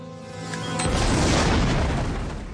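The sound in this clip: A bomb explodes with a deep boom that swells quickly into a loud, sustained rumbling roar and fades only slightly at the end.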